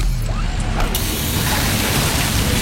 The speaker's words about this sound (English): Oh, busted hose. This will cost me time and money.